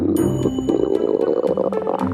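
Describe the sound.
A frog calls in a rapid series of pulsed croaks, loud and continuous with dense overlapping notes through the whole clip, with no voices.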